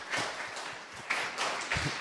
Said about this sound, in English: A round of applause for Field.